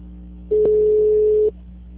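A telephone line tone after a dropped call: one steady, pure electronic tone that lasts about a second, sitting over a constant low hum.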